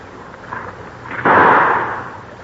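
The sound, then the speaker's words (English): A single gunshot from a hammer-cocked .38, a sudden sharp crack that bursts out and then fades in a rough, decaying roar. “Oh, I shot way over it. The barrel kicked up. I'm going to shoot again.”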